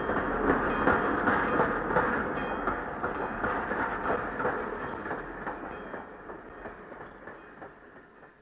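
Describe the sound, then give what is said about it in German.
A train pulls out of a station hall, its rolling rumble and rhythmic rail clatter steady at first, then gradually fading away, with no voices. “als der Zug aus der Bahnhofshalle fuhr und mitten in die Weihnachtsferien hineinschnaufte”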